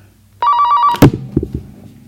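A telephone rings with an incoming call: one short, steady electronic ring, then a sharp click and some low clatter as it stops.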